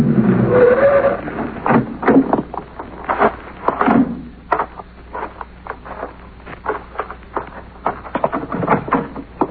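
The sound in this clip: A car pulls into the drive of a villa, its tires crackling over the surface in a steady run of irregular small bursts, with a voice heard over the first few seconds.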